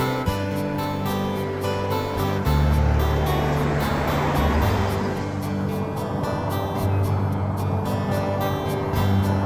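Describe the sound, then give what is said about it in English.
A car drives in a film scene, its engine a steady low rumble under a broad wash of road noise, with sustained tonal layers running beneath for the whole stretch. “I love how this driving scene just goes on and on and on.”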